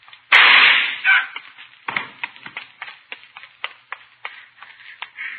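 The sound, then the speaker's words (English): A single loud gunshot cracks out in a radio drama with a dull, muffled character, followed by a rapid string of sharp, irregular clicks and taps of varying loudness. “Hold on up, Hartley, or I'll shoot.”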